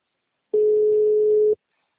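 Video call connecting tone: a single steady, mid-pitched beep lasting about one second, heard alone before silence.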